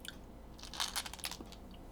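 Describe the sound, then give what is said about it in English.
Faint crunching and chewing of small milk chocolate cylinders with a shellac coating, a cluster of several quick, crisp bites and chews with no talking. “We'll open that up and have one of those first. They're little cylinders of chocolate.”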